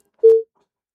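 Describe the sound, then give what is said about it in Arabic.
A disconnected phone line gives a brief steady beep after a call is cut off. One short mid-pitched tone opens with a faint click and sounds alone before silence. “للأسف قطع اتصال”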